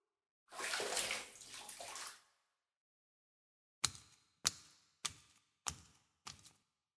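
Bath water splashing while someone's back is washed in a bath: a rushing pour of about two seconds, then after a pause five sharp, separate splashes in an even rhythm, each fading quickly.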